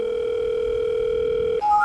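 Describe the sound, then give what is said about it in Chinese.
A telephone dial tone sounds while a call is being placed: a steady, unbroken mid-pitched tone that switches abruptly to a higher tone near the end. “我们打一个电话吧， 请个人带带我们。”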